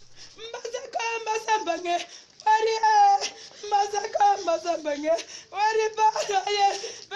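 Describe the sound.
A 62-year-old woman weeps and wails for her 27-year-old son, a police officer killed in fighting with separatists in the English-speaking northwest. Her loud, quavering sobs come in several long bursts broken by short pauses.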